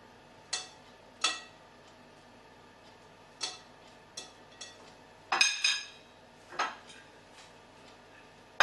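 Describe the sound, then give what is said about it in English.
Ingredients being mixed with clear honey in a bowl, giving a few sharp, bright clinks at irregular intervals, with a quick cluster of taps near the middle and quiet pauses between. “and some clear honey. So I'm just going to mix all of these into my bowl first of all.”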